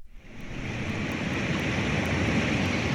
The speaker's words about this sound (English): Google, play river sounds. Here's what a river sounds like.